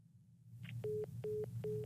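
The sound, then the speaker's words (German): Mobile phone vibrating with an incoming call: three short, evenly spaced buzzing pulses, each with a steady low-mid drone and a rattling edge, over a constant low hum. “Oh, schau, jetzt vibriert bei mir auch noch etwas.”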